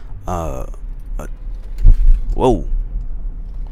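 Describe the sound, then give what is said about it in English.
Low, steady road and engine rumble inside a moving car while driving, with a hands-free phone in use. A voice talks over the hum, and light jangling sounds come through at moments. “Got some bad driving going on. I'm hands free, so let me stop real quick. I always do these in my car.”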